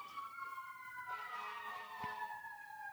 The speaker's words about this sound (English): I'm waiting for this siren. Yeah. Is it getting closer or further away? It's driving down the street because the end of Cochran is where the fire department is.